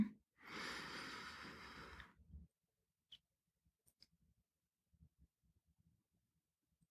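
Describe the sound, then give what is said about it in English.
One slow breath drawn in through the nose during a breathing exercise: a soft, steady hiss lasting under two seconds, followed by a few faint small clicks and near silence. “your last one will be through the nose as well. But when you breathe in, count to four and then breathe out. So let's do it. Breathe in.”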